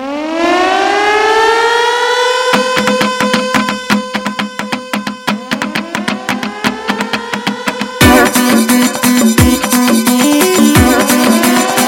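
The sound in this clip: A wailing siren with rising pitch opens a song by a band from Caracas, Venezuela, then keeps sounding over loud, steady drum beats and music, with a harder, denser section near the end.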